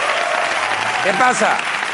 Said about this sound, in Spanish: Un aplauso para Jorge Ponce, que está ahí.